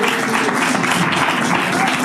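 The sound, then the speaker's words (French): Applause from a public audience outdoors for a contestant at a quiz game: a dense, steady patter of many hands clapping without pause, fairly loud from start to finish. “On applaudit quand même Michel.”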